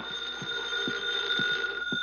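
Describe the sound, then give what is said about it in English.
A telephone rings in the living room of a suburban home: a steady, high-pitched ringing tone with faint, regular low ticks running under it, and no voices. “a well-dressed middle-aged woman rises from her chair to answer the phone.”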